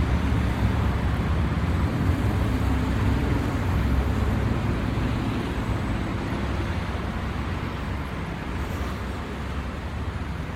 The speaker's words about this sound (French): Même sans casque, les deux roues restent quand même une émergence sonore du carrefour.